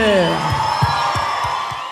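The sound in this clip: A crowd at a sertanejo music show cheers and whoops for a singer, with loud shouts over a few rhythmic claps, the noise easing slightly toward the end.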